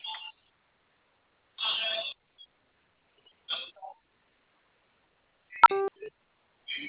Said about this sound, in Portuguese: Digite zero agora mesmo que já iremos te atender e informar o valor liberado.